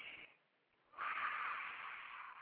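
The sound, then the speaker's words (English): Deep breathing by someone settling in before speaking, a brief airy hiss, a quiet pause, then a long, steady breath that rushes in and holds faintly for over a second. “Let's just take a couple of deep breaths.”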